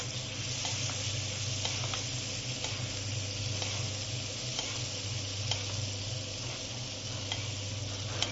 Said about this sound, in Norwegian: Måten man gjør dem ferdig, det er å tilsette litt smør, og så gleiser vi den.